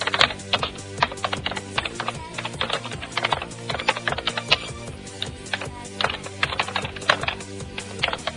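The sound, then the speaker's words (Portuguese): Rapid typing on a computer keyboard, a dense and continuous stream of many sharp key clicks with uneven rhythm at a moderate level, with no talking. “Imagina se a gente estivesse digitando aqui direto, olha só que chato.”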